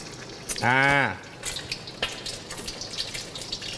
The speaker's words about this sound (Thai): พอน้ำมันร้อนไข่เราไม่ต้องไปทำอะไรมากเลยความร้อนที่อยู่ในกระทะเนี่ยก็จะดันให้ไข่ดาวของเราเนี่ยฟูขึ้นมา